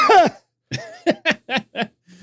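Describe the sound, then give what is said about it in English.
A voice imitates a child coughing: a brief vocal sound, a pause, then five short, rasping cough bursts in quick succession, fading into a faint tail. “I am coughed on routinely. Okay. You're reading with a kid and you're listening and all of a sudden they just kind of look at you and go,”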